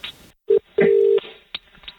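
Telephone keypad tones as a call is dialed: one short beep, then a longer steady beep, with a few faint clicks around them.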